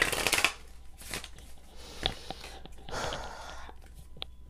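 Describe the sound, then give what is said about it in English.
A card is pulled from a deck of affirmation cards, making a few quiet papery rustles, slides and flicks in short bursts. “So I pulled the 17th card. There's 30 cards in this deck. I pulled number 17.”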